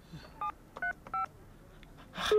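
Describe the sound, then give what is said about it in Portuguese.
Telephone keypad tones as a number is dialled: three short, clean beeps at an uneven pace, followed by a louder burst of sound at the end. “Estou a ligar. Vamos ver.”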